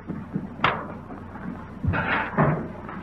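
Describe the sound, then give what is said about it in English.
Washing machine doors being shut during a washing demonstration: a few separate thuds and clicks of lids or doors closing, moderately loud, with no talk. “And then, if you'll be good enough to close the washers.”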